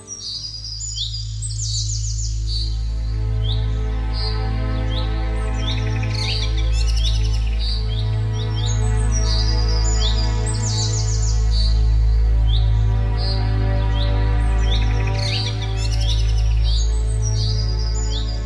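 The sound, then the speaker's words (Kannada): Birdsong and chirping in a quiet forest: many quick, high chirps and trills overlap continuously through the whole clip above a steady low hum. “ನೀರವ ಮೌನದೊಳಗೆ ಪ್ರಾಣಿ ಪಕ್ಷಿಗಳ ಕಲರವ”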